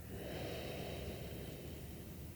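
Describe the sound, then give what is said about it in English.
A deep breath in and out during a relaxation meditation, heard as a soft, continuous, airy rush of breath that stays at an even level throughout, with no talk. “Big breath in, big breath out.”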